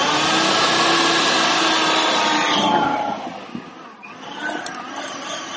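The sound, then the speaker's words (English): A kitchen appliance motor spins a blade through tart apples. It makes a loud, steady whirring roar that drops in level about halfway through and keeps running more quietly to the end. “You can hear the motor going round in there? I mean, the motor going fast, and it makes the blade go around.”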